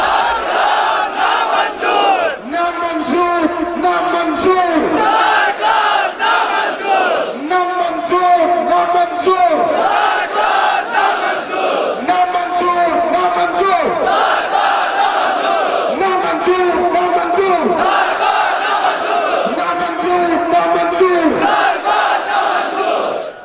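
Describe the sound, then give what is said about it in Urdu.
A large crowd chants the Urdu slogan 'namanzoor' in unison, repeating it many times in a steady, loud, rhythmic pattern of massed voices. “آپ نعرہ لگائیں گے نامنظور”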